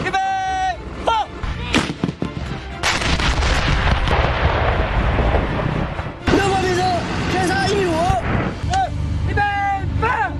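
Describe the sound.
Artillery guns firing during a military training drill: several heavy booming blasts burst out over a constant low rumble, with shouted voices heard between and around the shots.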